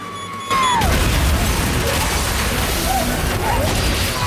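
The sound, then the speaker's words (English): A bomb explosion rips through an area full of police and vehicles. After a brief quieter moment with a thin falling tone, a sudden loud blast breaks into a sustained, crashing roar that carries on to the end. “The girl detonates, creating an almighty explosion that rips through the entire area.”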